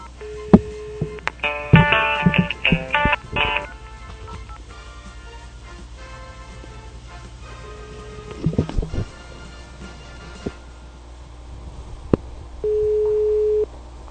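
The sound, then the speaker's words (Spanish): Phoning an admissions office that goes unanswered: a burst of dialing tones and clicks, quieter line noise with faint clicks, then one steady ringing tone near the end. “me ha dado el placer de llamar a esa oficina de admisión. Vamos a ver si, si nos contestan en estos momentos en vivo, a ver si alguien nos responde.”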